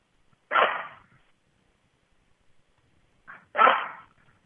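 Two loud, breathy bursts from a blind dog, likely short barks or woofs, well apart with quiet between and no talk.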